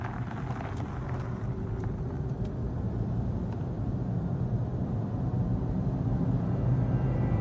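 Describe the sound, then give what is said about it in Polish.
An electric, zero-emission BMW i3 car drives with a faint, steady low rumble of road and rolling noise and no engine note, heard alone throughout. “Tak brzmi elektryczne, zeroemisyjne BMW i3.”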